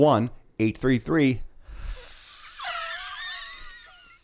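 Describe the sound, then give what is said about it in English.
Wet, wheezy breathing with thin whistling squeaks, moderately loud and alone, following a brief spoken phrase. “Picked up that wheeze. All the wetness.”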